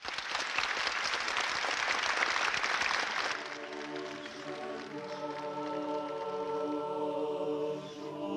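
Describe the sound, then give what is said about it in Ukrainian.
Warm applause greets Pope John Paul II's appearance in the Paul VI audience hall, holding about 9,000 people. A dense, loud wash of clapping lasts about three seconds, then gives way to a crowd singing together. “з'явився папа Іван Павло ІІ, його поява була зустрінута гарячими оплесками та співом «Отче”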